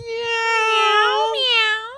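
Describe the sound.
A human voice imitating a cat meowing: one long, drawn-out, nasal meow-like cry with a clear tone. It shifts upward in pitch partway through and stays fairly loud and alone.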